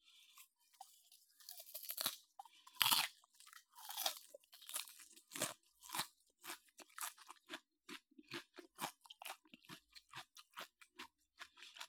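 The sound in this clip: Crunchy food being chewed, heard as many quiet, crisp crunches in an irregular rhythm that grows quicker and more even toward the end, with no talking.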